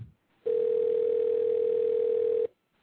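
A telephone rings on an outgoing call as one steady, loud ringback tone lasting about two seconds, heard alone and followed by silence.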